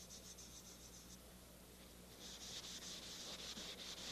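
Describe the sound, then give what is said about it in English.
Faint, quick rubbing strokes of an eraser wiping chalk off a chalkboard come in two rhythmic bursts, one at the start and a longer, slightly louder run near the end, with a quiet pause between and no voices. “The chalk that you put on here just goes on to the eraser. Like that. See?”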